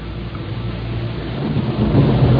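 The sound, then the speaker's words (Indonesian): A storm of heavy rain and strong wind: a steady, dense, rushing roar with a deep rumble underneath, growing slightly louder toward the end. “Hujan deras dan angin kencang membuatku kedinginan.”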